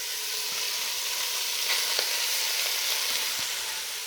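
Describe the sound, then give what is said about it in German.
Minced meat frying and sizzling in a large pot, crumbled in for a cabbage pudding, giving a steady, dense, loud hiss and crackle that holds evenly throughout with no voices. “So, jetzt ist es ein bisschen lauter vom Braten.”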